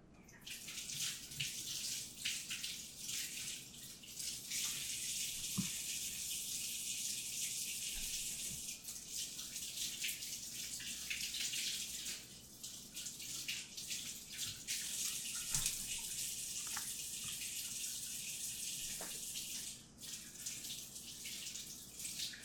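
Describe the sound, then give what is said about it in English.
Tap water runs steadily into a sink while fresh produce is rinsed, giving a continuous bright splashing rush with small shifts in the flow throughout. “So I'm just gonna rinse these off and make sure there's no dirt hanging out, but they look pretty clean.”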